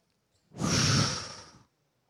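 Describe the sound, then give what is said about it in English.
A church audience takes a deep breath together, heard as one long, breathy rush of air. It swells quickly, holds for about a second, then fades out into silence. “Now I want you to take a deep breath before you're seated. Take a deep breath.”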